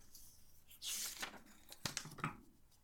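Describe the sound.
A thick envelope is torn open by hand: one loud, long rip of paper, then a few shorter tears and crinkles, all fairly quiet.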